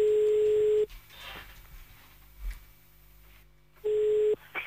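Telephone line tones while calling someone back. A steady tone opens, then breaks into a quieter stretch of line noise and faint clicks, and a shorter tone returns near the end.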